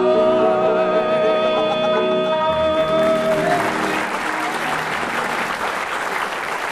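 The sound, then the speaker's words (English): Loud audience applause at a comedy panel game takes over as sung music with accompaniment ends. The clapping rises into a dense, sustained roar and holds through the rest. “Well, by the applause of the audience, Graham and Barry slightly ahead on that round.”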